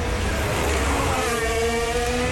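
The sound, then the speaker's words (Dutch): A Formula 1 car on hard tyres roars through the chicane at Monaco during practice. Its high-revving engine whines loud and steady throughout, with no break in the sound. “Bij Verstappen op de harde band. Door de chicane heen uitkomen tunnel richting Tabak.”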